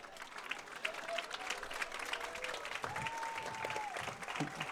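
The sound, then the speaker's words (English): Applause from the crowd at a high school football game as an injured player is taken off in an ambulance; scattered clapping runs throughout, with voices talking over it and a steady held tone partway through. “Big applause for this young man as he rides the ambulance, leads the field from the Wadley faithful and from the visiting Victory Lions.”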